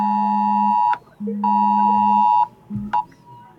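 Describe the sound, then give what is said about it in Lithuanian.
A mobile phone on a table sounds an emergency air-raid alert: loud, steady electronic blares in repeated sections of about a second each, with short gaps and a clipped final tone. “Taip, na ir ką tik nuskambėjo naujas pranešimas, mobilus telefonas yra šalia manęs ant stalo, girdžiu taip, ir pas kolegas.”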